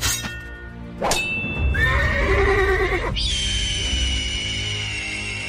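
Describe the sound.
A horse neighs at a horse display at a museum in Leeds. A sharp onset leads into a loud, wavering whinny, followed by a steady high-pitched ringing tone that holds to the end.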